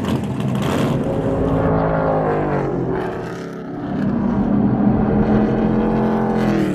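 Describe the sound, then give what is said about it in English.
A stock car drives fast on the Pocono Raceway track, its engine a loud, sustained roar with shifting pitch that dips briefly midway before rising again, with no voices. “you can actually get behind the wheel of one of these babies. Stock car racing experience at Pocono Raceway lets you feel the speed, and we are gonna take you for a little ride here, test this baby out”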